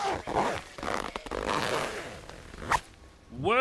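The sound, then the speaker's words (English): A zipper on luggage is yanked open in quick rasping pulls and scrapes of varying loudness, and a brief voice sounds near the end. “Now tear into this scumbag's luggage.”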